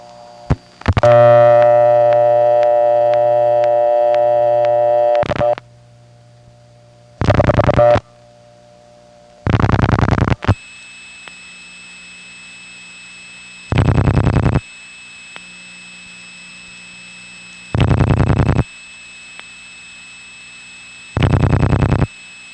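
Telephone intercept tones for a misdialed number on a partly manual exchange: a long sustained multi-pitched signal, then two short tone bursts, followed by three evenly spaced bursts over a steady high background tone.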